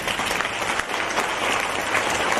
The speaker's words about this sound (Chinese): 让我们用掌声感恩卢台长为我们慈悲看图腾，